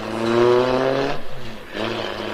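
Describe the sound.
A car engine hums with a steady, even drone as the car drives off round the grounds. A brief, rougher pulsing stretch interrupts it before the drone resumes.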